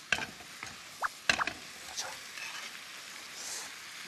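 Chives and mushrooms being stir-fried in a pan: a few sharp scraping clatters of a utensil over a faint, soft sizzling hiss, quiet overall.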